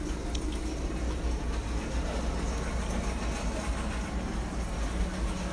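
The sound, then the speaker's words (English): A passing train gives off a steady, low rumble with a broad hiss of wheel and track noise, constant in loudness throughout with no voices over it. “All right, that's the train. Oh, we got the train.”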